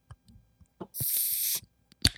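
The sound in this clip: A bottle cracked open against the edge of a desk: a few light knocks, then a sharp hit with about half a second of hissing gas, followed by another sharp knock.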